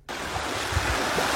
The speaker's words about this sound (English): That is the sound of the Tubatse River with its raging waters surging downstream.